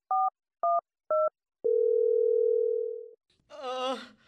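Three short, evenly spaced keypad beeps on a telephone while calling an ambulance, followed by a single steady, level tone held for about a second and a half before it cuts off.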